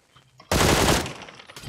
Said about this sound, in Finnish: Hän ampuu minua pistoolilla tässä talon takaan.